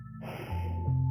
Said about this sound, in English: let's just take a deep breath together. And as we take that deep breath, we just take a deep breath of appreciation for life, a deep breath of life.